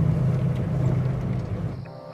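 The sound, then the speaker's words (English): Steady low engine rumble of a 4x4 driving at night on a bare, rocky road, continuous and fairly loud with no voices, its upper hiss thinning out near the end. “Now, they're driving through the night. With no streetlights or buildings, the only illumination on their journey are the 4x4's headlamps.”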